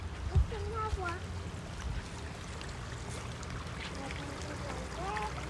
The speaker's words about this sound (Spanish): Ay, es el agua. Ese es el agua.